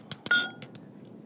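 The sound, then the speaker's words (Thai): Clinking knocks of a pestle pounding salt and kabun seeds into fine powder: two sharp strikes close together, then a couple of fainter taps, with no talk. “เราก็เอาเกลือเอากระบูนมาตำให้ละเอียดก่อนเป็นเม็ดใส่นี่กระบูนเป็นเม็ด”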